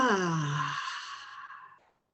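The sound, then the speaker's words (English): A deep breath in through the nose ends in a full, slow exhale during a guided relaxation exercise, a soft, faintly voiced sigh that fades to silence over about two seconds. “I invite you to have a nice deep breath in through the nose and exhale completely.”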